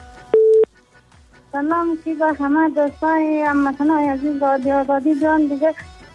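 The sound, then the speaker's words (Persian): A radio call-in line cuts off with a single brief, loud steady telephone tone, followed by a voice with a sustained, melodic pitch. “دیگه دیگه تماس قطع کرد خب میریم طرف تماس بعدی”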